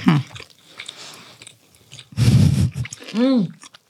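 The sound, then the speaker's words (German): Chewing and biting as people eat bread spread with butter, with soft crunchy bursts and short vocal murmurs between bites. “Gefräßige Stille.”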